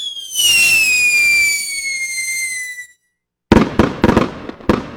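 Consumer fireworks go off for an American 250th celebration: a loud whistling rocket screams with a slowly falling pitch for nearly three seconds. After a brief silence comes a burst of sharp crackling bangs.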